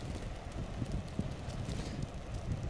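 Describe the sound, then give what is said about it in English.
Strong wind buffeting a microphone while riding a bicycle, a steady low rumbling roar with small gusty swells and no voices. “Listen to that wind, bestie. I love life. Woo! Almost threw me off my bicycle.”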